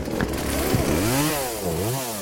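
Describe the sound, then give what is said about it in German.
Chainsaw engine running loudly and continuously for cutting a tree trunk into firewood blocks, its pitch climbing and dipping in repeated revs. “Dann wirft er die Säge an.”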